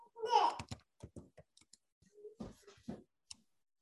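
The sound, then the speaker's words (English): A keyboard clicks as a website address is typed into a chat. A brief voice comes first, then sparse, irregular key taps, some doubled, quiet against near silence. “Ariana, okay, I'll write it in the chat right now.”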